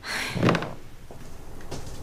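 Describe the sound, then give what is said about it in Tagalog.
A door is opened with a loud thud early on, followed by quieter rustling and a fainter knock near the end. “Ang tagal mo naman magbukas ng pinto.”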